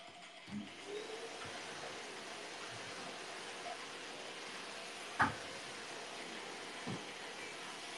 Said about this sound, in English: Did it literally just take me down? Yeah. The vacuum cleaner sucked my song.